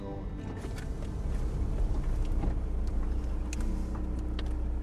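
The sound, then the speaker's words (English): A car drives with a steady, low, broad road and engine rumble that holds at an even, moderate level throughout, with faint higher clicks on top. “Sean and I, we've gone for a drive.”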